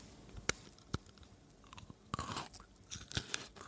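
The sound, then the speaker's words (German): Crunchy snack sticks being chewed: a few sharp, isolated bites early on, then denser clusters of crisp crunching, fairly quiet with no talk. “Die sind so lecker. Crunch-Geräusche liebe ich.”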